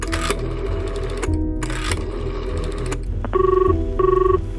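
A telephone rings on a call placed to a medical association, with two short electronic ring bursts near the end after a stretch of other busy sound.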